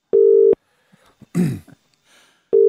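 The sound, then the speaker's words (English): An unanswered telephone call ringing out live on air: two steady, buzzing ringback tone bursts about two seconds apart, separated by a quiet gap holding a throat clearing or cough and faint breathy noises. “let's give this guy a call live on air, and we'll see how we go.”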